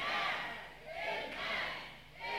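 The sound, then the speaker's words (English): Church audience shouting amen during a service, a few loud sustained crowd shouts rising and falling in overlapping swells. “Shout amen 3 times.”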